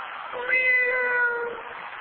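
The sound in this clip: A voice imitates a weak, sickly cat meow: one thin, drawn-out cry that swells briefly and then fades, heard alone without other talk.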